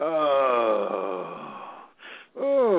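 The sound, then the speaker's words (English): A person groaning during a sound-healing practice: a long, low, voiced moan held for about two seconds. A brief breathy pause follows, and then a second groan begins. “And then finally, you've got the groan.”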